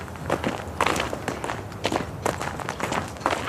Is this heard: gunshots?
no